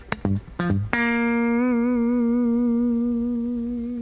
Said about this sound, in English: So right now we're doing extreme okay. sustain with a lot of compression. Okay. So you can hold out the notes.